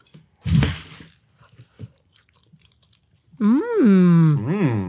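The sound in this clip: Biting into fluffy Three Bridges egg bites: one fuller bite is followed by faint, soft chewing sounds, and then a person starts talking.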